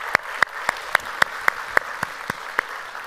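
An audience applauds to welcome fathers on Father's Day, with claps landing in a steady, evenly spaced rhythm that fades slightly toward the end.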